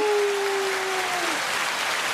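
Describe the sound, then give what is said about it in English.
Celebration crowd cheering sound effect, a loud, steady wash of cheers and clapping with a sustained tone that slides downward in the first second. “What do we got on here? Got some like celebration cheers, like crowd.”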